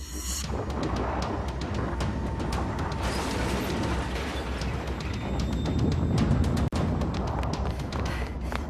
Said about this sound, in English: I think the ship's starting to move.